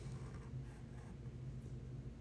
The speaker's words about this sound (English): and on my chalkboard here I'm just writing MU.